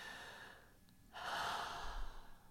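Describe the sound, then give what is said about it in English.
A single deep, long breath drawn in softly and slowly, then let out as a quiet, breathy rush of air, alone and faint. “put one of your hands by your heart and take a deep, long breath”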